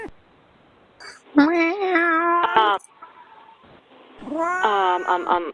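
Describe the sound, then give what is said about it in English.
Cat meowing during a phone call: two long, loud meows, each drawn out with a wavering, slightly rising pitch, separated by a quieter gap with faint noises. “You can hear that cat.”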